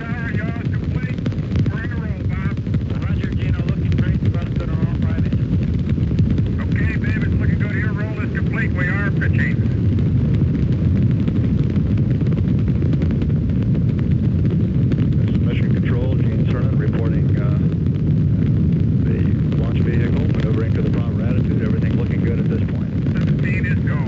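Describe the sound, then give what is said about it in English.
The Apollo 15 Saturn V rocket lifts off at Kennedy Space Center with a loud, steady, crackling roar that never lets up, while talk runs over it. “We have a liftoff, and it's lighting up the area. It's just like daylight here at Kennedy Space Center as the Saturn V is moving off the pad. It has now cleared the tower.”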